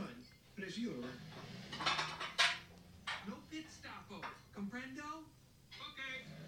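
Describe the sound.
Plates and cutlery clatter faintly as food is served out onto plates or into bowls in a kitchen. A few sharp clinks and knocks sound under people's ongoing conversation.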